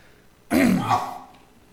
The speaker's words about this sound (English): excuse me while I get my throat cleared here a bit.